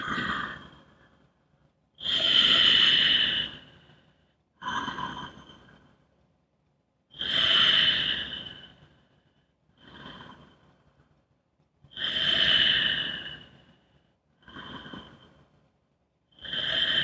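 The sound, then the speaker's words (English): Slow, deep breaths during a conscious breathing exercise: about eight airy breath sounds that alternate louder and softer, each separated by a short quiet gap. No talk. “You want to totally eliminate the pause between the inhale and exhale so that your breath becomes a continuous motion.”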